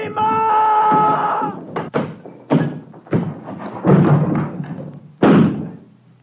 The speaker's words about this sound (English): Smash this door and get away.